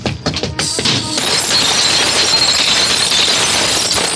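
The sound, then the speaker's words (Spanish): An enormous glass pane smashes as a 90-kilo man hurls himself into it. A few loud, sharp crashing impacts come first, then a dense, sustained wash of noise holds at high volume. “El impacto de sus 90 kilos sumados al esfuerzo parten en mil pedazos el enorme cristal.”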